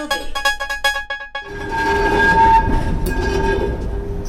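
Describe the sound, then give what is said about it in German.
An old tram pulling a doorless open wagon with wooden benches departs a station. A rapid series of short tonal signals comes first, then a loud, continuous rumble of motor and wheels with a steady whine. “Das Tremli fährt an Station Schifflandi. Aber nicht irgendein Tremli, sondern eins von den ganz alten.”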